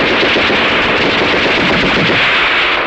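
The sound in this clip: Heavy gunfire in a battle charge, with continuous machine-gun fire and dense rifle shots roaring loudly and unbroken through the whole stretch, with no voices.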